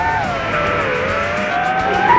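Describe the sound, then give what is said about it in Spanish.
A Toyota Yaris rally car drives past on a rally stage, its engine a loud, steady, high-pitched drone that dips slightly and then climbs again toward the end. “Iba el Toyota Yaris, va en busca de su segunda carrera consecutiva, segundo triunfo consecutivo de Alberto Heller y Luis Allende”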